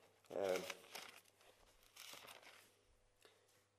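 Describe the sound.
Rustling and crinkling of paper as a Bible is opened and its pages leafed through to find a chapter of Philippians, a few short bursts of page noise beside brief talk.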